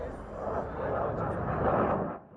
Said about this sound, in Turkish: Türkiye'nin ilk jet eğitim uçağı Hürjet'in Hava Kuvvetleri Komutanlığı'na teslim edilecek ilk uçağı ilk uçuşunu başarıyla gerçekleştirdi.